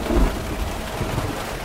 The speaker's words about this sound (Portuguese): Em poucos minutos, os pingos se tornam um temporal.